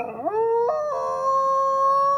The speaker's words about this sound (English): One of the most iconic and hated predators in the United States is having a moment.